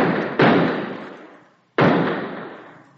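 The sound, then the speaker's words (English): Gunshots from a handgun fired into the air: sharp, loud bangs spaced apart, each followed by a long tail that slowly fades before the next shot. “Yeah, but first empty the gun in the air. There are 3 bullets still in it.”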